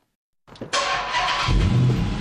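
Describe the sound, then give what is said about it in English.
A limited edition Dodge Charger with more than 400 horsepower starts up: a brief crank, then the engine catches and settles into a loud, steady roar that swells further toward the end, with no voices. “The roar of more than 400 horsepower is music to the ears of Peter Phan.”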